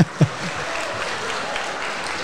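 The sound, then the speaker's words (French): Applause from a concert audience as a band walks onto the stage at a live venue: a steady, dense wash of clapping that holds at an even level throughout, with a couple of sharper claps at the start. “Le public va les accueillir avec des applaudissements chaleureux, bien évidemment.”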